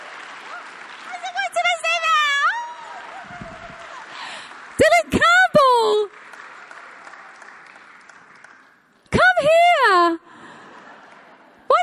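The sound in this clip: Audience applause welcoming a guest: a steady wash of clapping runs through the whole stretch, with voices speaking over it at intervals.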